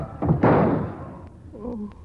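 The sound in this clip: A gunshot strikes a table in a radio drama: a quick thump is followed by a louder, heavy bang that decays away, and then a brief vocal sound.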